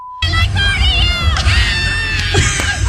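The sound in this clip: A concert crowd at the iHeartRadio Music Festival screams and cheers loudly in a dense, shrill, sustained roar that starts abruptly after a brief steady tone and stays high-pitched and intense throughout.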